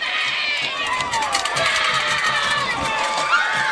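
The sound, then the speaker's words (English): High school football fans cheering in a stadium during a game: a continuous loud roar of crowd noise with shouts and shrill whistle-like cries rising and falling in the mix. “Canes fans making a little noise now,”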